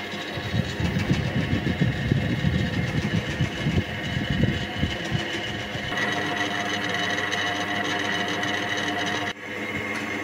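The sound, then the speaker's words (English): A machine whose spinning disc system holds 5 litres of water runs with a continuous whirring hum. A churning low rumble fills the first half, then the sound settles into a steadier drone. “I put 5 litres into the system and spun up the disc.”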